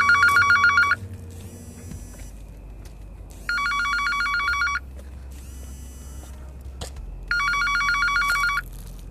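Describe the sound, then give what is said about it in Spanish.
An incoming call sets a telephone ringing with an electronic ringtone: bright, warbling bursts of tone repeat at steady intervals, three loud ones with fainter bursts between, over a low steady hum. “Ahorita me llegó una llamada que no, puedo atender porque estoy con ustedes y pues yo no interrumpo”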